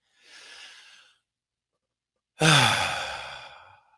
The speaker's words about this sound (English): take a deep breath. Surrender the exhale two more times.